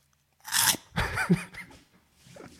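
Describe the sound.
Crunchy food being eaten right into a microphone: a few loud, sharp crunching bites and chews in quick, irregular bursts, trailing off into softer munching.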